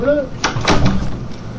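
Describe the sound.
A door opens during a council meeting, a short burst of latch and handling noise heard amid people talking.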